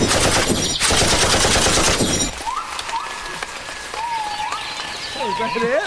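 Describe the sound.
Rapid video-game gunfire rattles out in a dense, continuous burst of shots for about two seconds, then stops and voices talk over quieter game sounds.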